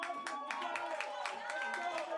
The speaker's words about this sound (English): He received a nice round of applause from the Tower Buzzer faithful as the conference concluded.